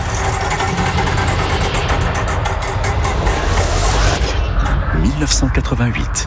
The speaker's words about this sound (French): Je vais envoyer la roue du temps qui s'arrêtera sur une année grâce à votre stop.